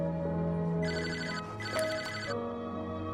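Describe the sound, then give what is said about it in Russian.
A home telephone rings in the morning with one faint electronic ring burst of about a second and a half. A low, steady background tone runs under it. “Ей звонит Джонс. Мисс Чету Толбот, это доктор Джонс. Простите, что звоню вам на домашний номер.”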